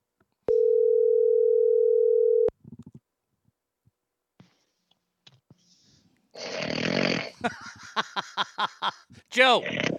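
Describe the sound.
A steady telephone dial tone holds for about two seconds as a phone call is placed, followed by a few short clicks and then noisy, overlapping voices.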